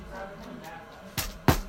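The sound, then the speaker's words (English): A fake off-brand plastic lightsaber hits a couch, giving two soft, muffled thumps a moment apart near the end, faint over low background hiss. “That's the sound of a fake off-brand lightsaber hitting a couch.”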